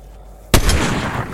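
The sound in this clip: A sniper rifle fires a single headshot in a video game: a sudden loud crack after near silence, followed by a booming, rumbling tail that slowly fades.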